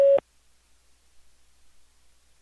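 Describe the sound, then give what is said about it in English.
A single short, steady beep from a phone message system sounds loudly as the tone to start recording, then cuts off to near silence. “Record after the tone.”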